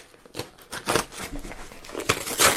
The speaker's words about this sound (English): That's a letter opener. I know. Some people get afraid of it because it has a knife handle. But it works. Let's see. It's coming. Yeah, I got the holes now. I can rip it.